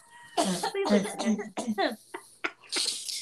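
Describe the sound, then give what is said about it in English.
Coughing from someone who has choked on their own spit: a run of harsh, rapid coughs with some throat clearing, followed by a few more scattered coughs. “Hang on 1 second. I choked on my own spit. Hang on.”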